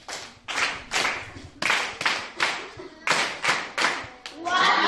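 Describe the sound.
Children who recited passages by heart on a Christian radio programme are applauded with many loud, rhythmic claps in a group beat.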